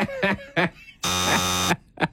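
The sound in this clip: A buzzer sound effect blares as one loud, harsh, steady buzz lasting under a second, with brief talk just before and after it.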